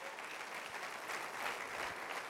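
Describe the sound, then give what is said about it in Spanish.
An audience claps in applause for a brief burst of dense, steady clapping at a moderate level, with no clear voices over it. “dale un aplauso al rey, por favor.”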